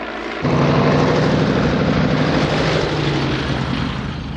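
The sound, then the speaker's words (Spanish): Engine of a biplane coming in to land on an open plain: a loud, steady droning roar that starts abruptly after a brief quieter moment and holds at an even level, with no voices. “El avión se dispone a aterrizar en una explanada.”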